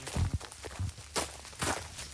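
Footsteps crunch along a path in a cemetery during a national war remembrance gathering: a few soft, uneven treads, then a pause and a couple more steps.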